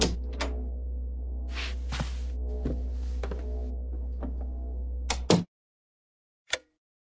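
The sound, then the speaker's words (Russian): A door handle is pressed and a cabin door opens in a dimly lit space-station corridor. A few faint clicks sit over a steady low hum, then louder clunks come near the end, followed by silence and one last click. “Я прошел две двери и остановился у той, на которой виднелось имя Гибаряна. Я нажал ручку.”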